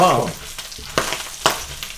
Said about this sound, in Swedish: Det fräser det här.